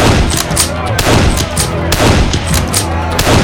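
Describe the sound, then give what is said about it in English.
A rifle is fired repeatedly into the back of a house: loud, sharp cracks come in a rapid, continuous volley of many shots with no pause throughout. “stopped just long enough to empty his rifle into the back of the house.”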